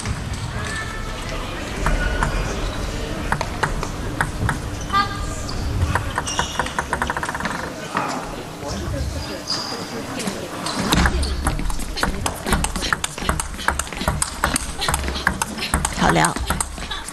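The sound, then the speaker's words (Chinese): Table tennis rally in a match, with quick forehand and backhand shots: many sharp, light ball taps and bounces in fast, uneven rhythm, heard under steady commentary talk. “多拍的相持，金大英他的护台还是比较好的。 嗯，正反手的这种， 这一板勾过来了， 衔接的速度。”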